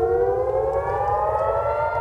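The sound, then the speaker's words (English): Air-raid sirens wail at night in northern Israel during airstrikes. The loud, sustained, steady wail drifts slightly upward in pitch and carries on without a break, with no voices heard. “Sirens piercing the night”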